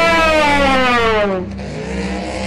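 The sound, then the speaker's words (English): Racing power pod boosters rev and speed off with a loud, high engine-like whine rich in harmonics. The pitch sinks gradually before the sound thins into a lower, steady rumble. “Rev, rev those boosters! 3, 2, 1, go!”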